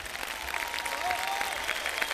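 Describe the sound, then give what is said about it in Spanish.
An audience at an evening concert applauds with steady, dense clapping that holds an even loudness throughout. “Un aplauso grande para ustedes.”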